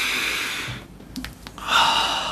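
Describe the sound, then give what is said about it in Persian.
A single deep breath: soft, airy rushes of breathing at a low level, with a brief quiet gap between them and no talk. “یک نفس کشیدم”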